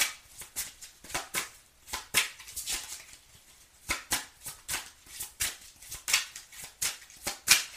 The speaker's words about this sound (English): May I have a card for Leo, please? Two cards came out.